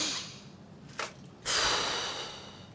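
A deep, calming breath taken during a relaxation exercise: a brief breathy puff, then a longer, soft rushing breath that slowly fades away, with no talking.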